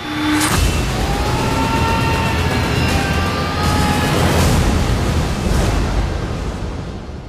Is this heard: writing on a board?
no